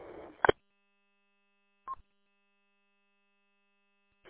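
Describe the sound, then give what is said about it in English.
Faint short electronic beeps from a two-way radio with its encryption turned off: a quick double tone, then single blips separated by silence, over a thin steady hum. “The double beep means you got your encryption turned off.”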